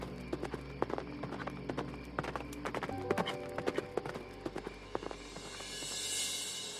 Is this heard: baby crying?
no

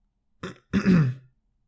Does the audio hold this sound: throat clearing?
yes

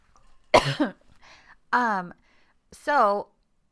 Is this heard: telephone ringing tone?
no

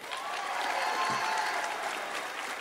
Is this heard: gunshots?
no

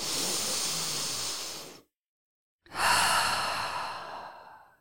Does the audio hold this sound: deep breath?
yes

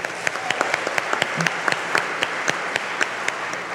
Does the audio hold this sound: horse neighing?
no

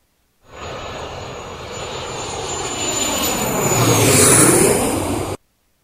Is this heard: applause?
no

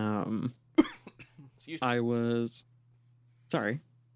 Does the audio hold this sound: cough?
yes

